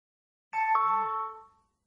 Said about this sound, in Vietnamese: Tracy nghe tiếng chuông gọi cửa và đi xuống cầu thang trong trạng thái nửa tỉnh nửa mê.